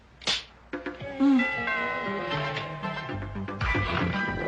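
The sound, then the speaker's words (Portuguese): A cat meows in a dubbed film scene, a drawn-out harmonic cry that wavers in pitch after a few short knocks at the start. “É o gato de novo.”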